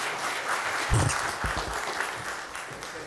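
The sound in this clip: Audience applause welcoming a guest speaker to the front during a morning gathering: a steady, dense wash of clapping from many hands that holds for about three seconds, loud and without voices over it.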